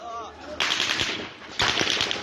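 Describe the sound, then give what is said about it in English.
Gunshots in a video filmed before dawn near a military checkpoint with a tank: two loud, noisy bursts of gunfire, the second sustained, following a brief voice. “in Bilal's video, filmed 7 minutes earlier at 4:22 a.m., gunshots ring out.”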